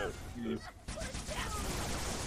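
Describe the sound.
Rapid gunfire from the video game Halo Wars, dense overlapping bursts of shots that run almost continuously at a moderate level.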